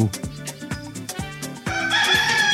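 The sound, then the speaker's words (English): A rooster crows a loud, firm cock-a-doodle-doo, heard alone without talk. “Lots of eggs. Also swims. And wakes everybody up with a nice, firm cock-a-doodle-doo.”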